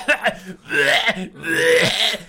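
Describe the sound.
A man's voice imitates a wrestler coughing up blood after being slammed onto a chair: two short retching bursts, then two longer gurgling, croaking strains.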